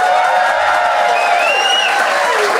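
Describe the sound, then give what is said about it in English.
Audience applause and crowd noise during a live comedy panel show vote, a loud, dense, unbroken roar of clapping with some raised voices and cheering tones mixed in. “if you think they made the best case, please applaud now.”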